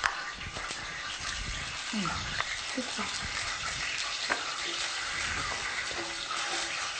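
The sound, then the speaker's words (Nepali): Cooking oil heats for deep frying, giving a steady, fine sizzling hiss that runs throughout beneath people talking. “कसैलाई deep fry मनपर्छ भने हामीले यो तेलहरू पनि यसरी डिप फ्राई गर्छौँ। यो पहिले नै बनाउनु? हजुर, पहिले नै बनाएको छ। अब यो तेल राम्रोसँग तातिनुपर्छ।”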